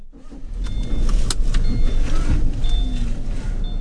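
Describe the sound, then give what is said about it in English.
A car drives along with a steady low engine and road rumble, moderately loud throughout, with a few faint clicks and a thin whine above it. “I drive over to butternut gutter with Bill from the library to talk to some neighbors.”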